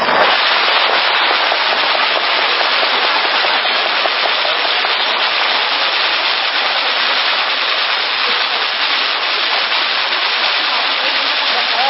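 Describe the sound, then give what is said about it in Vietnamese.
Dense firecrackers set off for the Lunar New Year crackle in a loud, continuous, unbroken roar for the whole stretch. “Sau bây giờ chúng ta cùng vỗ tay đón mừng năm mới hòa lẫn với tiếng pháo của ngày đầu xuân.”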